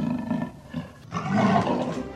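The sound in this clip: A lion or tiger roars, a deep rumbling growl that dips briefly and then swells into a louder, sustained roar, heard alone without voices.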